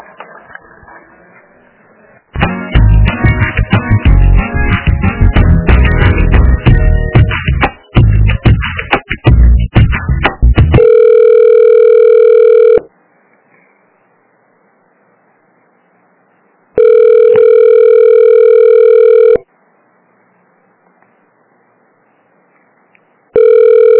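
Hold music on a phone line gives way to a ringback tone while a call is transferred to a purchasing department, with two long, steady, buzzing rings separated by silence.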